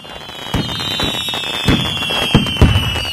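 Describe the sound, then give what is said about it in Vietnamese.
Fireworks explode over the sea from a 15-minute artistic show of high and low shells above coastal cliffs at an outdoor night event. Sharp, loud bursts fall at irregular intervals over a steady crackling hiss. “Điểm nhấn của chương trình là màn trình diễn pháo hoa nghệ thuật kéo dài 15 phút. Những chùm pháo hoa tầm cao đan xen pháo hoa tầm thấp liên tục thắp sáng bầu trời eo gió”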